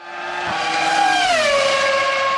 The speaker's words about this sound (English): As opposed to when you're in an F1 car and it sounds like...